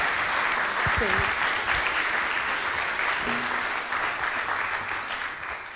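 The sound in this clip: Audience applause greets a speaker as she is welcomed onto the stage, a steady, dense clapping that holds for about six seconds before easing slightly toward the end.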